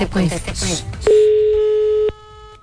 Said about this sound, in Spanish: Ay, no, llamemos de nuevo. Ahí está marcando de nuevo.